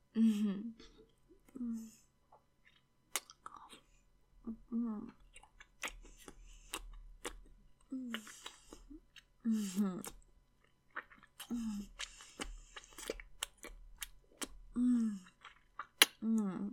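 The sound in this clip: Wet chewing and mouth noises of someone eating lemons: sharp clicks, smacks and crunches scattered among short voiced sounds.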